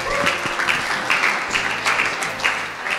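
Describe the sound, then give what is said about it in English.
A church audience applauds as the preacher comes up: a sustained, moderately loud wash of clapping that holds steady throughout. “If we all just put our hands together as Brian comes up and shares the word with us.”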